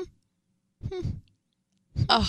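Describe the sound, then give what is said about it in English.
A person imitates a flat-faced Persian cat's happy-trance breathing noise, making two breathy, sigh-like vocal sounds, one on the in-breath and one on the out-breath, separated by a short silence. “He makes this noise when he goes into his happy trance. Like if I'm petting him and he just goes into a trance.”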